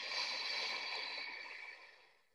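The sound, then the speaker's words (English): A slow exhale through the mouth during a guided breathing exercise, a soft airy hiss that holds steady and then gently tapers away over about two seconds. “And in through your nose. And hold, and out through your mouth”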